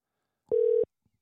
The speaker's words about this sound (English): Keypad. That's what I needed to hit. Doggone it. Okay, let's call him right now.